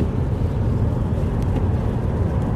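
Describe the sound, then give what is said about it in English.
Steady road rumble of a car driving down a highway: a continuous low roar with a faint airy hiss of wind on top, unbroken for the whole stretch and with no talking. “Like, I'm literally driving down the highway right now. Driving down the highway talking to you all to make sure that you all get this episode.”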